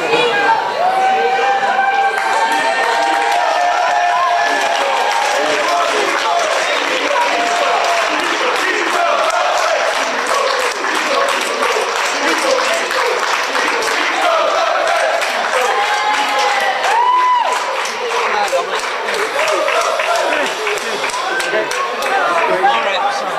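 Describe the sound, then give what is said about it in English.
A crowd of family, neighbours and supporters cheering a footballer's homecoming to Ireland after the FIFA World Cup, with continuous loud cheers, shouts, chatter and some applause throughout. “That's Roberto Pico Lopez, as he was welcomed back to Ireland by his family, neighbours and supporters.”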